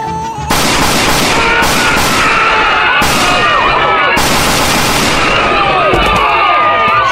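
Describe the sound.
Loud police gunfire in a tense confrontation: several sharp shots cut through a dense, continuous roar of noise, with voices mixed in.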